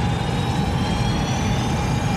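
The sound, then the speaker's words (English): Spacecraft engines applying reverse thrust in a video game, a loud, continuous, broad rumbling roar with no breaks. “Power restored to core systems. Manual navigation controls online in 2, 1. Green light, applying reverse thrust.”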